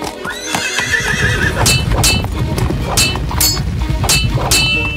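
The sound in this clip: A small horse gallops and neighs during a battle. A drawn-out whinny at the start rides over a dense, loud rumble of hoofbeats, followed by several sharp metallic clangs, with no speech.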